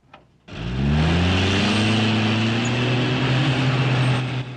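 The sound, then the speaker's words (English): Engine of a half-track, a small tank-like vehicle, setting off up a steep sandy hill: a sudden loud low roar whose pitch climbs as it revs, then settles into a steady heavy drone. “As the vehicle sets off up a steep sandy hill, he stands up, surveying the scene.”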